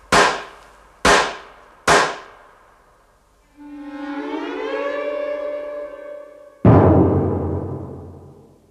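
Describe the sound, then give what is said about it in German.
Gangsters' gunfire as they empty their magazines: three sharp, evenly spaced shots, then a long wailing siren, then one more loud blast. “Die Gangster aus New Orleans hatten blindwütig ihre Magazine leer geschossen”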